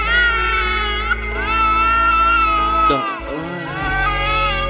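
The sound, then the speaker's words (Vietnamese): Baby crying: an infant wails steadily in a high, wavering tone, with a brief catch and dip midway before the cry resumes just as loudly. “Nhung à, con khóc kìa em ơi, dỗ con đi.”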